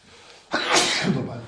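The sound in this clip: A single sudden sneeze bursts out sharply and loudly, followed by a short breathy tail as it fades.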